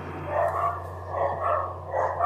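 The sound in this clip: Dogs bark in muffled, overlapping bouts that swell and fade in a few rounds over a steady low hum.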